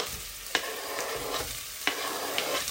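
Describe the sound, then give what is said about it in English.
Onions, chilies and peppers fry in a pan with a steady, bright sizzling hiss. A few sharp clicks of stirring cut through the sizzle. “I like to do the onions first, then the chilies, then I'm going to put the peppers in as well.”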